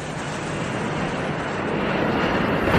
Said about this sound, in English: Airbus, Brisbane via Sydney. How close to get to the end of the runway? Oh, just over the fence.